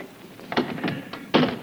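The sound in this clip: A locked door being unlocked and opened: a few dull thunks and knocks spread across the moment, the last one loudest, with no voices.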